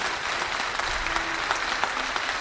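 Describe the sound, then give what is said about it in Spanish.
An audience gives warm applause to welcome the president of the Balearic Islands government in Menorca. The clapping is dense and steady and carries on without a break through the whole moment. “Tenemos el gusto de recibir con un cálido aplauso”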